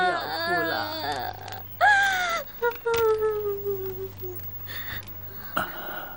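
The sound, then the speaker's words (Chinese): A young woman cries and sobs in grief, with drawn-out wailing cries that slide downward in pitch, broken by sharp breathy gasps and short pauses. “这娘子年轻，没经过此事，只知道哭。”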